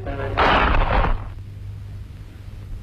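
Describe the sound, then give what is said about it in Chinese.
A single gunshot in a radio drama: a loud, broad blast lasting under a second that quickly drops into a fading tail over a steady low hum. “子弹穿透了罗蒙诺的心脏，就这样一声不响的倒下。”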